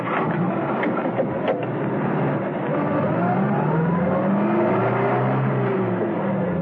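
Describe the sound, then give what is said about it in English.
Steady engine rumble of a taxi driving through narrow streets, continuous and fairly loud throughout, with a tone that rises and falls as it goes. “A short while later, while rounding a corner of the narrow streets, Arcos stopped the taxi.”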